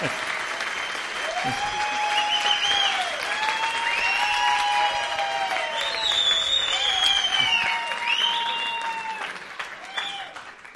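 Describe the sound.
Sustained audience applause with dense clapping and high, gliding whistles and cheers over it. It holds steady for about ten seconds and then tapers off at the end.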